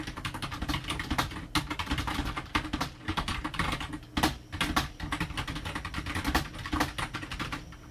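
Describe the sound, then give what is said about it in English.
Rapid clatter of keys as text is typed on a computer keyboard, many quick, uneven keystrokes running steadily for several seconds with no voices. “So I'm just going to type some text in.”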